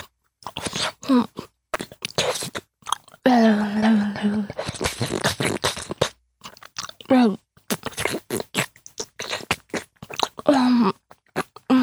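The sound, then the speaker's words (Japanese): Crunchy chewing and biting as someone eats the last bite of food, with many irregular moist crunches and short bursts of mastication. Brief vocal sounds break in between, and the loudness stays fairly steady with small gaps. “ではお言葉に甘えて、最後の一口まで全部頂戴しますね。”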